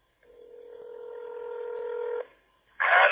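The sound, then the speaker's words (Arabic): A telephone keypad tone during an outgoing call: one steady electronic two-note beep held for about two seconds and growing slightly louder, then a brief gap and a short burst of noise. “هذا الاتصال. سامعين صوت الاتصال؟”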